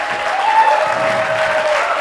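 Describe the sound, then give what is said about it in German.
Audience applause rings out for helpers and volunteers at a year-end event. The clapping is loud and sustained, an even dense roar with no breaks from start to finish. “Applaus, Applaus.”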